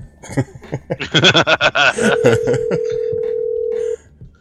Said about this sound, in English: I think the phone got disconnected again by mistake.